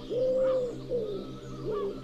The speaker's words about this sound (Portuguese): É o maior dos pombos que habita a Europa. Pode ser visto em várias regiões de Portugal com muita facilidade.